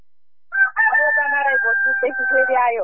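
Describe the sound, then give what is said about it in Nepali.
Rooster crowing in the early morning: one long, loud crow of over two seconds, starting with a short note and then holding a strained, wavering high cry before breaking off, heard alone. “एक बिहानै कुखुरा बासा छ”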